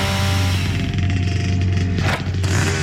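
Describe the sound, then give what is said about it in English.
A chainsaw cutting wood drones steadily with a loud, buzzing engine note that wavers slightly and dips briefly near the end. “There are some things you just never do blindfolded, like cutting wood,”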